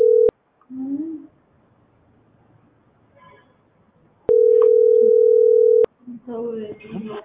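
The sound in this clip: The ringback tone of an outgoing phone call sounds as a steady, pure electronic tone: a brief burst, then a longer ring of about a second and a half. A person talks between the rings and again afterward.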